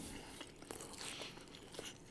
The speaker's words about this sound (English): Sorry. Just chewing and chewing.